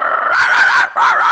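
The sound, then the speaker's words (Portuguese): Dog yelping in two drawn-out, high, whining cries, the first longer than the second, loud and alone with a short gap between them. “Já falei que é pra não deixar entrar cachorro nesse grupo, truta.”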